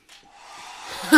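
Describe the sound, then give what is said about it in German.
A broken hair dryer blows a breathy, airy whoosh that swells steadily in loudness over about a second and ends in a short, louder burst. “Mach diesen Föhn aus! Das Ding ist hinüber!”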